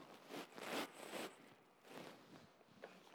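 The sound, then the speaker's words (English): A beard rubs against a microphone, making a few scratchy, brushy bursts of rustling that swell and fade irregularly, fairly faint between the louder scrapes. “That's my beard now. Just for the sake of the tape, that was my beard.”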